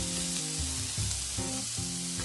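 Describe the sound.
Food sizzles and fries in a pan as it is stirred and mixed. The crackle stays steady and fairly quiet, with no talking.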